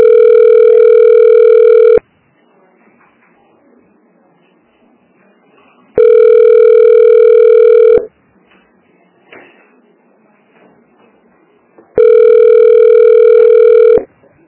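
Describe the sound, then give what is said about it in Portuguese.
A telephone ringing tone plays on the line while a call is being transferred: three steady, evenly spaced two-second bursts of a clear, loud tone, separated by longer gaps of faint background noise. “Acho que tá transferindo agora, pra ele pra atender.”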